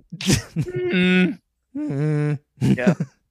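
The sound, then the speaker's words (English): A voice imitates Marge Simpson's groaning noise with several drawn-out, throaty groans at a low, steady pitch, separated by short pauses. “I just remember being like, damn, that's a good Marge noise.”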